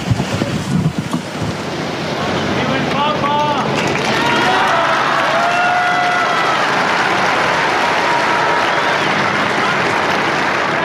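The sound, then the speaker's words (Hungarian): Pilgrims in St. Peter's Square applaud Pope Francis after his blessing. Loud, sustained crowd applause swells and stays steady, with voices and chanting rising over it early on. “A szokásos tapssal búcsúznak az zarándokok a Szent Péter téren Ferenc pápától, megköszönve az ő szavait, az ő áldását.”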